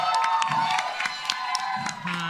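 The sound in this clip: A live audience clapping and cheering to welcome a guest, with sharp, irregular claps mixed with crowd voices and cheers.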